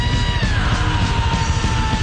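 A person screams a long, sustained high note in imitation of a heavy metal singer. The strained, piercing yell holds steady throughout and sags slightly in pitch as it goes on.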